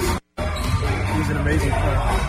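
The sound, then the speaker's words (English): Loud basketball shootaround noise: balls bouncing and clattering amid steady background voices. The dense, continuous din has only one brief dropout near the start. “It was a loud shoot around, so I apologize for that.”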